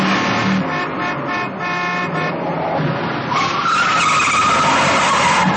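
A car's tires screech as it skids to a stop, one loud, continuous squeal that holds steady and then thickens with rougher, grinding noise toward the end.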